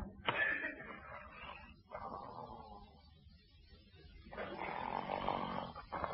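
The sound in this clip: An old man snoring loudly in his sleep, a few long rasping breaths separated by a quiet pause, each rough and droning.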